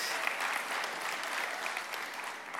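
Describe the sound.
A church audience applauds a welcome back with steady, even clapping that holds at a constant level throughout.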